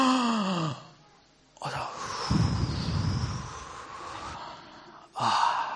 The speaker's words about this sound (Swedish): Allihopa, ta ett djupt andetag.